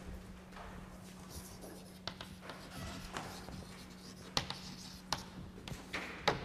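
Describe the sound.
Writing on a board during a physics lecture: many faint scratching and tapping strokes come in irregular bursts over a low, steady hum, with no talk.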